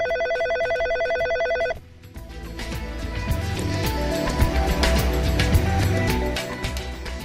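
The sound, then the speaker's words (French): A telephone ring tone on an outgoing call from Prague to Paris holds as one steady, buzzing tone for nearly two seconds. It then cuts off into a dense wash of noisy sound. “Radio Prague appelle le centre tchèque de Paris.”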